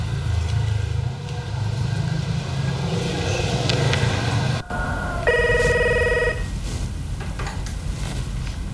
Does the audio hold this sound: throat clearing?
no